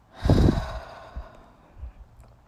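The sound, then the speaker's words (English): Deep breath drawn in through the nose and released through the mouth: a strong, breathy rush at the start that tails off into softer, fading breath sounds. No talk is heard. “Inhale through the nose, big inhale. And release through your mouth.”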